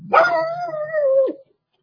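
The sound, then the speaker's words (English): A pet dog gives one drawn-out, howling bark, a steady, fairly loud cry of just over a second that dips at the end and then cuts off into silence. “My dog's going to start barking here in just a second.”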